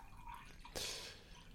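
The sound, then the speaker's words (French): Water poured into a small glass gives one brief, faint splashing burst that fades within about half a second over quiet background. “je vais juste me servir un petit verre d'eau.”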